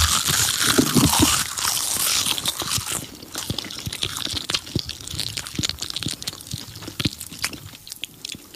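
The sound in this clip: Crisp bites into a crunchy seaweed snack, with many sharp crunches and chewing sounds packed closely together, loudest at the start and continuing steadily without talk.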